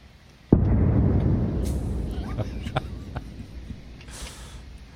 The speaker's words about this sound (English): You'll hear it loud and clear when that gun goes off.